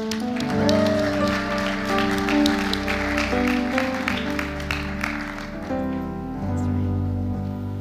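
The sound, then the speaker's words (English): Audience applause welcoming a speaker at a church gathering: steady, dense clapping over sustained background music, thinning out in the last couple of seconds while the music carries on. “Let's give her a hand as she comes.”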